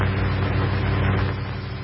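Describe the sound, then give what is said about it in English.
A 1955 Chevrolet car brakes to a stop with a steady, loud, low rumble from the engine and road, easing slightly toward the end, with no voices. “Yes, level flight stopping in a 1955 Chevrolet.”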